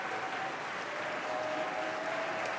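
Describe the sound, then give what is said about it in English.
Audience applause for a chamber ensemble at Preston Bradley Hall, a steady, even wash of clapping over a faint constant hum, with no voices standing out. “Fifth House Ensemble, getting quite a reception from the audience today at Preston Bradley Hall.”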